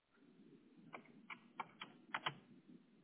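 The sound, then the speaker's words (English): Faint keystrokes on a computer keyboard as a search is typed, a handful of sparse, uneven clicks over a low steady hum. “Now what you'll want to do is in the search bar, you're going to type roofer near me.”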